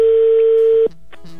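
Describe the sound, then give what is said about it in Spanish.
Telephone tone on an outgoing call: a loud, steady, mid-pitched tone holds for nearly a second, then cuts off into fainter, shorter tones. “Venga, ya está sonando el teléfono. Esperemos que nos conteste.”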